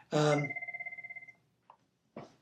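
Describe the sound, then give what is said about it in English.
A telephone bell rings in one short trill of rapid, evenly spaced pulses with a steady tone, following a louder opening burst. Two brief faint sounds come after it. “That was the phone.”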